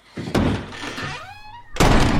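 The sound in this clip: A toilet door being shut in a large toilet: two heavy, loud thunks, the second after a brief tonal squeak.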